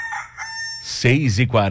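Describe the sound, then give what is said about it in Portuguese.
Rooster crowing, a loud tonal call with strong harmonics that swells into a louder, wavering cry toward the end. “Cutuca o galo que tá na hora.”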